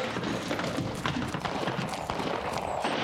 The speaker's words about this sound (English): Now look yonder at that fool kid. He's gonna run somebody down riding that way. Well, he's trying to ride like an Indian.